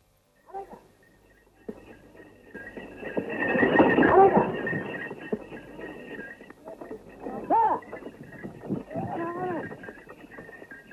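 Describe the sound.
A bullock cart moves along with a rolling rumble and clopping hooves that swell midway and then ease off. People talk over the cart in the later part.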